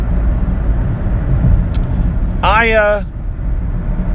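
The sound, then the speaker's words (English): A car driving home on the road makes a continuous low rumble of engine and tyre noise that stays steady throughout, with a voice talking over it. “Yeah. I don't know what else I have to tell you. I'm driving home.”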